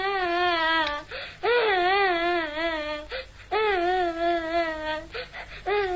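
A person is crying in long, wavering, high-pitched wails, each drawn out and trembling, broken by short catches of breath between them.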